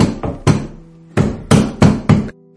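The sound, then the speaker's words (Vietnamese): Forceful banging on a door by someone pounding it in haste: loud, heavy thuds in two bursts, two blows and then four in quicker succession, with a faint steady tone under the gaps. “Anh nóng vội dùng sức đập cửa.”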